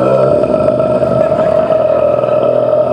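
A 33 rpm record slowed down to 16 by a cardboard gadget, playing as a continuous, loud, deep and murky smear of sound with a belching, burp-like quality.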